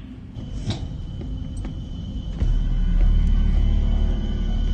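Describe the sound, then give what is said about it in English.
A sensory deprivation tank being opened in a video game: a low mechanical rumble that thickens and grows louder halfway through, with a faint steady high whine above it and a few soft knocks. “Let's check the tank. So they're opening the tank.”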